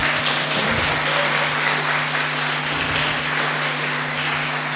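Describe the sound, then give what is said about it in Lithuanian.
An audience gives thunderous applause as a video crew and photographer stand, a dense, steady roar of clapping that runs through the whole stretch over a low hum, with no talk. “O dabar griausmingi plojimai.”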